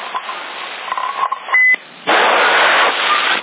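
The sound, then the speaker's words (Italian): A whistle tone over CB radio: crackly radio noise with faint tones, then a short, steady high beep, followed by a loud burst of rushing static hiss that lasts just over a second and stops abruptly. “il fischio.”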